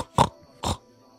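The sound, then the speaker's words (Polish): A human voice imitating a wild boar during a tabletop role-playing game: two short, low, grunting snorts, evenly spaced and fairly loud, with quiet pauses between them. “Brzmi jak dzik.”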